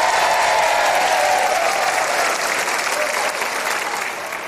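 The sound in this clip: Audience applause at a live dangdut koplo show, a dense, steady wash of many hands clapping that stays loud and eases off slightly toward the end.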